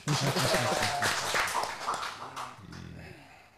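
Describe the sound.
Audience applause at an interfaith gathering on religious harmony, loud and dense clapping at first that thins out and gradually fades away toward the end.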